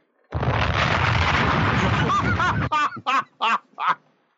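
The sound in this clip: A bomb explosion sound effect roars as a dense, sustained blast for over two seconds, then cuts off into a few short, laugh-like vocal bursts.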